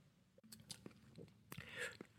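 Wine being tasted, with faint wet mouth sounds as it is sipped and swirled: a few short slurps and squishing clicks, with quiet gaps between them.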